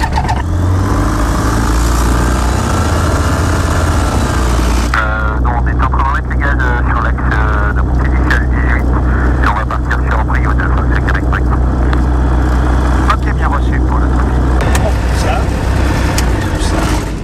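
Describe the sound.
A light aircraft engine starting up, a loud continuous mechanical drone that shifts partway through into a rougher, sputtering roar before running steadily.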